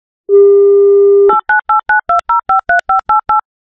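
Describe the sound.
Telephone dialing while calling a radio listener: a steady dial tone lasts about a second, then ten short, evenly spaced touch-tone beeps follow at varying pitches.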